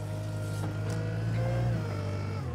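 A wheel loader's diesel engine drones steadily as a trainee drives and steers it, a continuous low hum with a faint whine above it, holding fairly even throughout before easing slightly at the very end.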